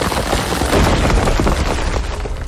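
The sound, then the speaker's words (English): The Boulder Bash attack effect from a monster-battle video game gives a dense, crashing rumble of booms and crackles. It stays loud and unbroken for a couple of seconds. “Foe Resgard used Boulder Bash.”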